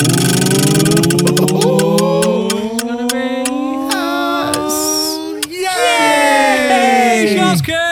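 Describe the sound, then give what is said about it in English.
A prize wheel spins with a rapid run of ticks that spread out and slow as it winds down, while people exclaim and whoop excitedly over it. “There's nothing to go through from last week, so we shall spin the wheel.”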